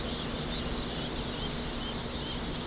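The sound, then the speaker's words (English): Thousands of freshly hatched chicks peep together in a hatchery in Lebanon, Missouri, a dense, continuous chorus of high thin chirps layered over a constant busy wash, steady in level throughout. “The peeps of thousands of small, fuzzy, freshly hatched chicks drifts through Cackle Hatchery in Lebanon, Missouri.”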